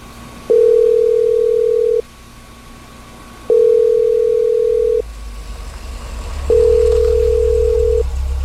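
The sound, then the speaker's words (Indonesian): A telephone line tone sounds while a call is placed: three long, steady, mid-pitched beeps of equal length, separated by even pauses, with a low rumble growing beneath the later beeps. “Cepat telepon”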